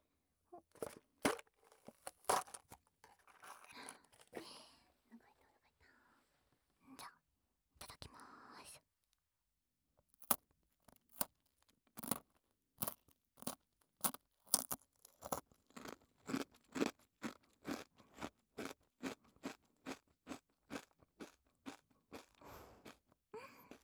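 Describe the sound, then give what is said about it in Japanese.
Crunchy snacks being eaten: many sharp, quiet crunches and chews, irregular at first and then settling into a quicker, steady rhythm, with faint rustling early on. “お菓子を食べます。”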